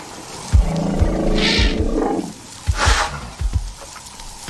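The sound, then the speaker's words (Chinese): Lions of a large, starving pride roaring in the Okavango Delta, heard as deep, loud, grunting roars in several bursts separated by short pauses, low and rumbling throughout. “在奥卡万戈三角洲，莫瑞米和庞大的三角洲狮群正在挨饿。”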